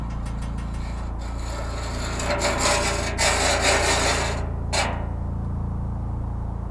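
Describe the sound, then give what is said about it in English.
Rusted metal is scraped in a continuous, gritty rasp that swells in the middle. A final short scrape follows, then it settles into a dull low rumble, with no voices. “spent 19 minutes on one recording, ending with scraping of rusted metal.”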